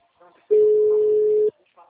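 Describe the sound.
A telephone ringback tone heard while placing a call: one steady, mid-pitched tone lasting about a second, loud and even, with brief quiet talk just before and after it.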